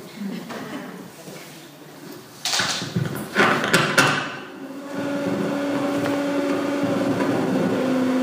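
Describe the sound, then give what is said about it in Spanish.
A blender motor runs in a steady, droning whir with a constant pitch that holds to the end. It follows a few short clattering knocks. “No se preocupe, la licuadora.”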